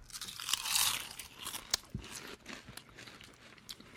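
Crunchy bites of potato chips eaten right in front of a microphone: a run of sharp, crumbly crunches and crackles, fairly faint, with no talking.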